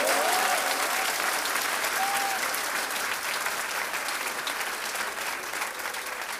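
Sustained hand clapping from many people, a dense, even patter of applause that eases slightly toward the end.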